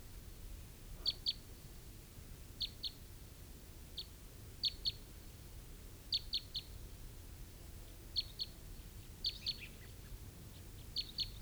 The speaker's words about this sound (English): I think I hear some crossbills.